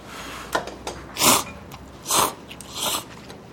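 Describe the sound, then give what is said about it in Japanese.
Eating a miso soup pasta dish with a tomato tang: a few soft, breathy bursts of slurping and chewing with small clicks between them, faint and without talk. “味噌いただきます。”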